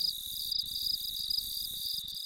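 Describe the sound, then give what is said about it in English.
Katydids and crickets chirp on a warm summer night in the Ozarks, forming a faint, steady, high-pitched trill with rapid, even pulsing that continues throughout. “warm nights spent with the chirping of katydids and crickets”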